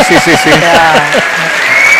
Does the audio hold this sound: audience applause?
yes